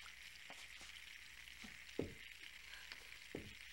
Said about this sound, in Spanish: ¿Qué estás haciendo? ¿Eh? ¿Rosetas de maíz?